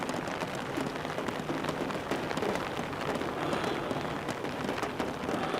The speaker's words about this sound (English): Rain runs against the window.